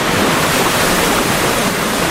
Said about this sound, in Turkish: Bir binanın otopark duvarından akan su adeta küçük bir şelale izlenimi verdi.